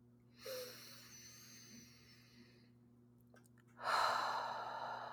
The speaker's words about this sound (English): I'm going to take another deep breath.